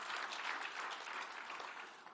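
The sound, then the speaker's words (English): A church audience claps in faint, dense applause that stays steady for the whole stretch, with no voices over it. “you can clap. Go ahead.”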